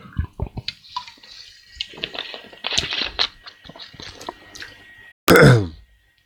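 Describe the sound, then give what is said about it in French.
Someone taking a small sip of water: a run of faint clicks and soft handling noises, then one short, loud gulping burst near the end. “Je prends un petit coup d'eau et je couperai ça.”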